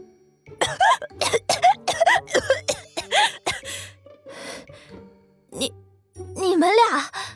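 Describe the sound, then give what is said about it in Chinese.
Repeated hacking coughs from someone who has just choked: a rapid run of many hoarse, voiced bursts, a short pause, then a final strained coughing spell. “赵思义闻言手一抖，这下是真被噎着了，猛地开始咳嗽，脸也憋得通红，慌得眼泪都咳出来了。”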